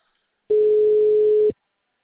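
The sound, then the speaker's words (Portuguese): A steady telephone tone sounds after a dropped call: one flat, mid-pitched beep lasting about a second, alone between silences. “Oi, a ligação caiu.”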